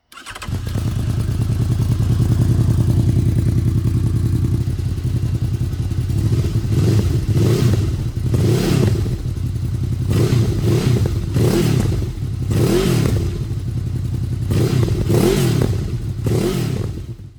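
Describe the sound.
A V4 motorcycle engine fitted with a new GPR exhaust pipe holds a loud, steady idle, then revs hard in several sharp bursts that climb and drop away.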